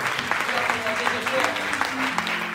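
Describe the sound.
A church audience applauds, with steady, dense clapping that continues under a voice speaking over it.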